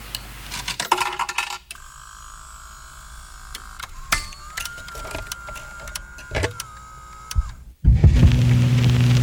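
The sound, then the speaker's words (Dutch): Coins dropped one at a time into a jukebox coin slot, making several sharp metallic clinks and rattles separated by pauses over a steady mechanical hum. “Dus ik heb geld mee moeten brengen om in de jukebox te worden. Dus u hoort dat ik geld in het laadje steek en dan gaan ze zingen”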